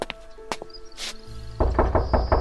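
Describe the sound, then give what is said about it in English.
Knocking on a door of a house in a Cotswolds village in 1947: a few sharp knocks early on, then a quick run of firmer raps near the end, with no talk. “On the 13th of September, 1947, there's a knock on the door.”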